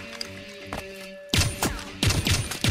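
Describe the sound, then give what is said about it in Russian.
Several gunshots in quick, irregular succession, sharp loud cracks that follow a quieter stretch of faint knocks and rustles. “Кирилл резко уходит с линии огня, Селинга разворачивается, стреляет.”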